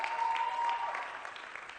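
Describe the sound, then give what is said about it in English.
A church audience gives a brief hand clap. The quick burst of many hands is fairly faint and tapers off toward the end. “Church, can we give them a great hand clap real quick?”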